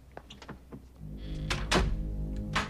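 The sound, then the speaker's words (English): A door is shut and then locked, giving a few dull knocks and clunks followed by a sharper latch click, all over a steady low hum with no talking. “closes and locks the door.”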